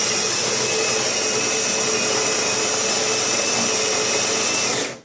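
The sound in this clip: Steady, loud whirring grind of a Melitta Caffeo Solo bean-to-cup coffee machine milling beans, a continuous motor drone with a thin high whine that holds level, then cuts off at the end.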